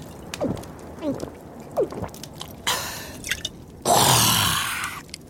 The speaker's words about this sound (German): Korken ab. Das riecht gut. Manchmal hält das Leben doch etwas Gutes bereit. Ein kräftiger Schluck.